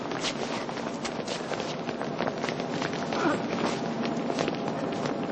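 Quick footsteps of a man running through a busy metro station, a rapid patter of steps within a dense, continuous wash of noise.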